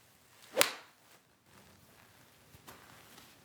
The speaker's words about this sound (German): Und deswegen jetzt vom Boden, weil ich das Eisen eigentlich meistens vom Boden schlage. Na dann, also, jetzt geht's los.